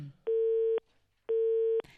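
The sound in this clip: A telephone busy signal sounds as two identical steady tones, each about half a second long, separated by an equal gap of silence.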